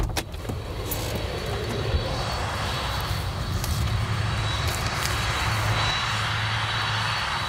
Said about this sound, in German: Die nächste 777 ist schon im Anflug.